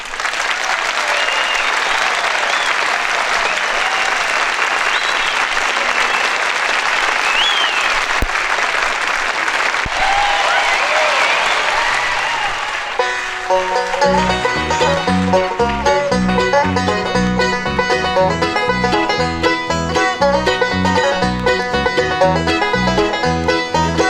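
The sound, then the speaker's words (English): Audience applause welcomes a band on stage for a live recording. Dense, steady clapping fills roughly the first half, then the band's music starts and carries on to the end. “I want you to give them a big hand”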